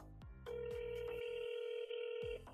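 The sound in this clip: Telephone ringing with an incoming call: one long, faint, sustained electronic ring tone with a brief dip partway through, ending after about two seconds.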